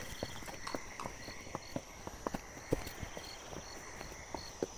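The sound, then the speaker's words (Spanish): A mule's hooves knock over loose stones on a rocky path, many sharp, irregular clops, fairly faint, set against a steady high chirping chorus of frogs and insects. “Voy a poner el micrófono para que oigan la mula, pasando por la piedra.”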